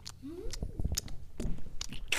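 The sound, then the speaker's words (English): Several people slowly crunch potato chips close to the microphone as an ASMR bit. The bites come as soft, irregular, crisp crackles and chewing, all fairly faint. “You guys want some ASMR? Thank you for anything. Yes. The ASMR portion of the podcast. We all slowly eat potato chips.”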